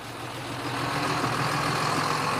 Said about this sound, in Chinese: 这里变得越来越繁忙，一辆接一辆的卡车排队过桥。